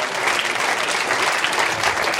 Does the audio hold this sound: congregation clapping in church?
yes